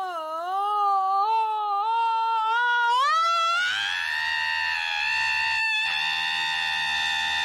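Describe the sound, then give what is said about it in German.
An alarm clock sold as merchandise plays a recorded human scream after being plugged into a wall socket. A loud, sustained, wavering wail turns harsher and more strained partway through, with no talk over it. “Ein Wecker, der schreit.”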